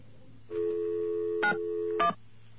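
Telephone tones while calling an operator: a steady mid-pitched tone held for about a second and a half, broken by two short multi-tone dialing bursts near its end, over a low hum.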